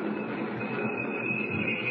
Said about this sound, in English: Train's slowing down. Coming into a station, I guess.